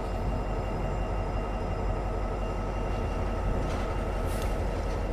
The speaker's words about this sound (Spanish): ya he hecho la toma de la locomotora y ahora mismo estamos esperando a que se complete toda la formación del tren